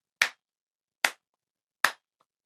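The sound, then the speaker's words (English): Three sharp hand claps ring out alone, slow and evenly spaced, each a crisp, bright smack that dies away quickly. No voices are heard. “Who's clapping?”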